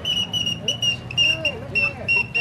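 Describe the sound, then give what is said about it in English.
An all-metal toy whistling bird, sold as a gift for a little boy, gives off many short, shrill, high chirps in a quick, uneven warbling rhythm, fairly loud, over a low background hum. “genuine all-metal whistling birds to delight the kiddies' hearts and make their eyes dance.”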